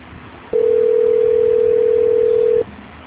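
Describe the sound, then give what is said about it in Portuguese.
A telephone tone sounds while a call is being transferred: one loud, steady, single-pitched tone that starts abruptly, holds for about two seconds and cuts off cleanly, over a low line hiss. “Só um minuto, por favor, que eu vou transferir a sua ligação. Ok. Transferência.”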